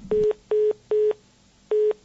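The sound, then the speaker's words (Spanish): Telephone line tones from a call that goes unanswered: four short, steady, mid-pitched beeps, evenly spaced at first, with a longer pause before the fourth. No voices. “No ha colgado, pero no ha cogido el teléfono.”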